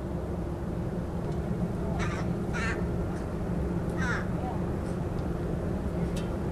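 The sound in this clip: Harsh calls from an agitated parent bird near its nest of chicks only a few days old, high in a treetop. A few short, crow-like bursts rise above a steady background of low noise.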